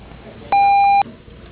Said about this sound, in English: Otherwise, leave a brief message at the tone, which phone number will return your call as soon as we return.